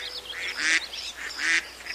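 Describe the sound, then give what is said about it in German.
Ducks honking and quacking on a park pond, two loud nasal calls about a second apart with fainter calls in between, over a steady outdoor background hiss. “Genau, hier bei den Enten. Na, was denkt ihr da drüben auf dem Teich?”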